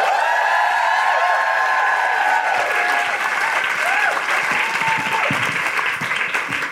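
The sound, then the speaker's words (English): Sustained audience applause welcoming a spoken-word performer to the stage, with bright whoops and whistles riding over dense clapping that thins slightly toward the end. “Put your hands together and welcome to the mic to perform the wonderful Koko Brown!”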